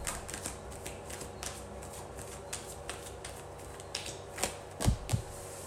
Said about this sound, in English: We have the Six of Swords. I'm going to just pull these cards out first.